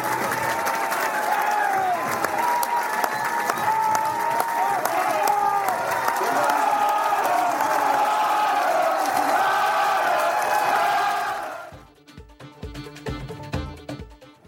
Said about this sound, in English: there's a huge crowd in here, the terraces behind the goals are full, and so are the stands. This place is going to be bouncing.